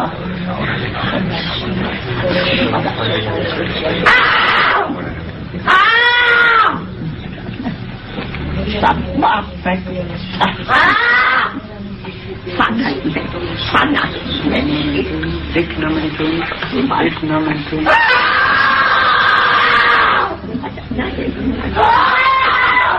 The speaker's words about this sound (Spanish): Los gritos son reales, indudablemente.